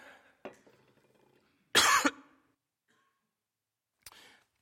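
Coughing from a tickle in the throat: one loud, harsh cough burst in the middle, with a couple of much softer, short throat sounds before and after it. No talking is heard.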